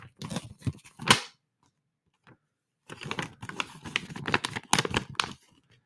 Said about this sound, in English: This is the sound of a Disney ticket. You ready?